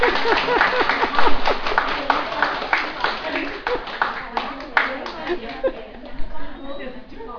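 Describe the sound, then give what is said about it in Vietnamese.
Audience clapping: scattered, uneven sharp hand claps in many separate bursts under continuous talking, lighter and more broken than a full applause roar. “Xong, vỗ tay rồi.”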